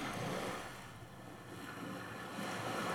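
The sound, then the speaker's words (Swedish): The tide comes back in as a faint, steady rush of water and surf mixed with wind noise. It swells, dips slightly in the middle, then rises again, with no voices. “Det här är när tidvattnet kommer tillbaka.”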